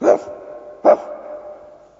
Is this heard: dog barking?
yes